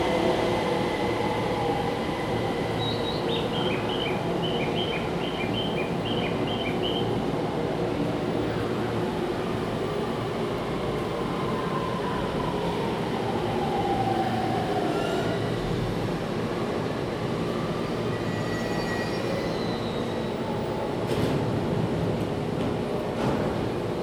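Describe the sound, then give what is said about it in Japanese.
A rapid train bound for Narita arrives at a station platform: a steady rail rumble throughout, with a short high chime melody early on and faint gliding wheel squeals later. “4番線には快速成田行き到着です。3番線にも上野行きは到着しております。”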